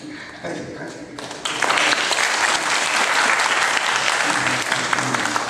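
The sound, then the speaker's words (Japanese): Applause fills a church after a closing prayer: a softer patter at first, then a swell into loud, dense clapping that stays steady to the end. “改めて拍手”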